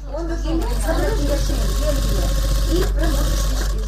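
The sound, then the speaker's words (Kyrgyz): A sewing machine stitches clothes in a charity fund's office where cancer patients sew, its steady low mechanical hum running continuously beneath someone talking. “Эргене коомдук фондунун кеңсесинде рак илдетине чалдыккан жарандар тынбай кийим тигип жатышат.”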